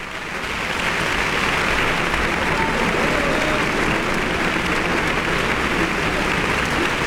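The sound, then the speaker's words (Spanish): An audience applauds in the concert hall of Centro Cultural Tlacna after a symphony orchestra performance, dense sustained clapping that rises briefly at the start and then holds a loud, even roar throughout. “Usted puede escuchar el entusiasmo del público reunido el día de hoy en la sala de conciertos del Centro Cultural Tlacna.”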